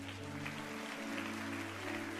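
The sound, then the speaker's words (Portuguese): Congregational applause during a Portuguese-language church service, a dense, steady patter of clapping held throughout over sustained low musical tones. “Você pode aplaudir ao Senhor?”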